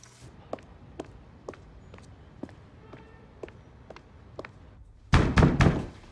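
Knocking on a door in a film scene: a steady series of quiet footsteps leads into a quick run of several loud, heavy knocks.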